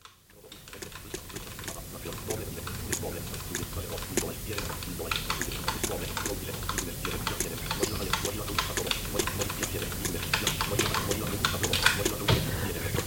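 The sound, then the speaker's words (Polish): Keys on a Braille Edge braille display are pressed in rapid, irregular clicking, with many small sharp taps coming one after another and growing slightly busier toward the end. “Nie wiem czasem, czy nie głośniej słychać było odgłosy wciskanych przeze mnie klawiszy na klawiaturze niż właśnie ten wyświetlający się na linijce Braille Edge tekst.”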